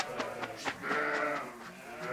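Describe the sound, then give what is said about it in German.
Pregnant East Frisian milk sheep bleat while being moved in a livestock trailer. A faint, wavering bleat is heard over low background noise. “Mit so einem Anhänger sind ihre Schafe noch nie gefahren.”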